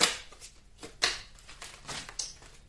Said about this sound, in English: And these cards just fell out. I can't take all these. Can't take. This one doesn't want to go back in.